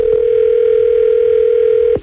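A telephone dial tone sounds on the line before a call is redialed: one steady, unbroken mid-pitched hum held for about two seconds, then cut off abruptly with a click at the end.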